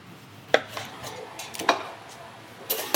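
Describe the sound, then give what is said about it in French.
A knife trimming the ends off a roast venison fillet on a board: a few sharp, loud knocks at uneven intervals, separated by softer cutting sounds. “Je vais venir juste couper les entames, pour pas qu'il y ait trop de peau.”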